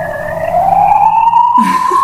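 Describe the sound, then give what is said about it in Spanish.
An ambulance siren wails loudly in a single rising tone that climbs steadily, then breaks off into a short burst of other sound. “Es la ambulancia. Sí, es la ambulancia ahí.”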